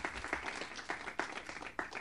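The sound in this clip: Applause from an audience welcoming a speaker to the stage at a Film Forum screening: a steady wash of clapping with a few sharper bursts standing out.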